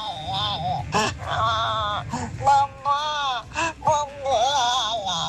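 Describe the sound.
A voice imitates a baby crying: a string of wavering, bleating wails, loud and repeated several times with brief breaks between them.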